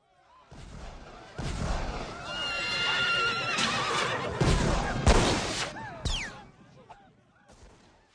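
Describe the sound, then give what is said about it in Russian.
Horses neigh amid gunfire during a battle with pistols and sabres. A few sharp, loud gunshot bursts cut through repeated high whinnies over a dense, noisy din that swells and then eases toward the end. “А далее началась карусель, наполненная пальбой, ржанием коней и криками людей, потонувшая в пороховом дыму.”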